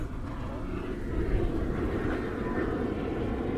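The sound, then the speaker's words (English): Airplane flying overhead, a steady, broad low rumble of engine noise that holds at an even level from start to finish with no clear rise or fall. “And then there's a plane above.”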